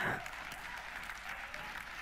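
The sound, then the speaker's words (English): A church audience gives the live stream team a round of applause, a faint, even patter of many hands clapping steadily throughout. “That's our live stream team, guys. Please just give them a round of applause.”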